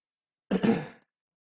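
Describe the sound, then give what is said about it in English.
A short throat clearing heard alone, a single rough burst of about half a second with two close pulses, surrounded by silence. “Nothing like starting an introduction out with a throat clearing.”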